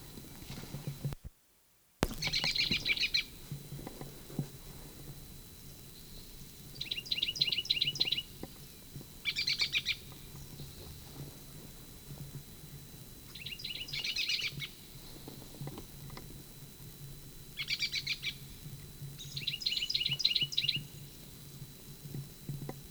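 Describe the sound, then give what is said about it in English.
Bird song: faint, high, rapid chirping phrases recur in several short bursts over a low, steady background rumble, with no talking. “Evidently the Blomqvist bird.”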